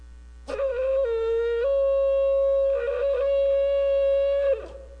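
Shofar ram's horn blown in one long sustained blast of about four seconds, a loud, buzzy tone with strong harmonics that steps up slightly in pitch early on and wavers before breaking off.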